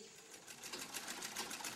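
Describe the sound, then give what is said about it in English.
Sewing machines run in a sewing shop that turns out ready-to-wear garments, giving a fairly faint, rapid, steady rhythmic clatter that holds through the whole stretch with no voices. “But in the hands of the right person, these machines can do the job. Quietly and efficiently, the ongoing work of the sewing shop keeps our children well clothed.”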